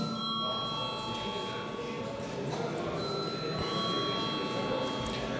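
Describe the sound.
Electric bell rung in a parliament chamber to call members before a vote: a sustained ringing tone with steady bright partials, heard over a low murmur of voices in the hall.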